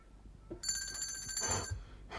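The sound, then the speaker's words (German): A bell is rung to summon a maid: a bright, rapid, trilling ring lasts about a second before it stops abruptly, set against quiet surroundings. “Kein Mensch hört mich. Klingeln ist wohl nicht laut genug.”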